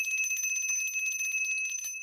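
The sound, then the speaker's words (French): A small bell rings with fast, bright, high tinkling strikes repeated many times in an even rhythm, fairly faint and alone with no voices. “Maudite clochette.”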